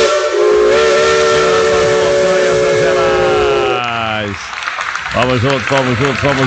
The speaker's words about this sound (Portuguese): a nossa locomotiva, nossa Maria Fumaça, rasgando as montanhas de Minas, rasgando as montanhas do Brasil.